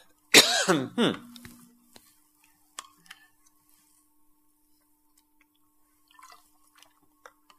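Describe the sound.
Throat clearing from a catch in the throat: one loud, harsh burst of clearing near the start, followed by near silence with a few faint scattered ticks.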